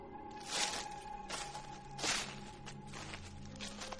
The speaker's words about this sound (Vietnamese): bởi vì những tiếng đi lại kỳ dị ở ngoài kia lại tiếp tục vang lên sột xà sột soạt.